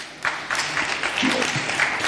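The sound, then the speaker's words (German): An audience applauds during a spoken talk. The clapping is moderate and fairly steady, with a few brief louder surges and no clear voices over it. “ich nehme diesen Applaus nicht an.”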